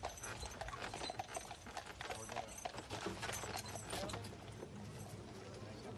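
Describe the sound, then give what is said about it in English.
Horse hooves clip-clop as the horse pulls a carriage, a faint, continuous clatter of many steps with voices murmuring underneath. “I liked the carriage ride very much”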